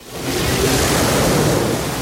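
Sea waves wash onto a beach in a steady, loud rush of surf that swells in at the start and holds evenly, with no voices.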